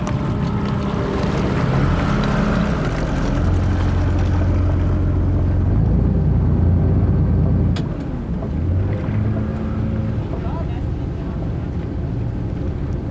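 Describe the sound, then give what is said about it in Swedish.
A motorboat engine drones as the boat comes in to dock at an island, a steady low rumble that carries on for several seconds and then drops away, leaving a quieter wash of sound. “Nu håller vi på och ska lägga till här, Svenska ögarna.”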